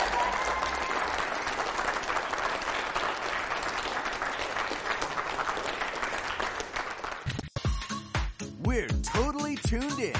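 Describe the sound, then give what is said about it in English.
An audience claps loudly in a dense, continuous burst of applause for several seconds; the clapping then cuts off and voices take over. “You guys make some noise for David Andrews right now.”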